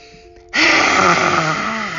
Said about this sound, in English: Take a big, deep breath and say, ha, with your tongue out. One more time. Big lion breath.